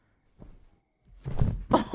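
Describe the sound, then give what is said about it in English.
A person jumps and falls to the floor: a faint soft thud, a short pause, then a heavier scuffing crash and one final hard thump. “Oh my fucking God, I can't believe you actually tried to jump for it and fell.”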